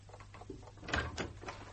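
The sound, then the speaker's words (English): A door is being unlocked, heard as a few faint clicks and knocks from the lock and door over a low steady hum, with no voices. “Oh, you've unlocked the door.”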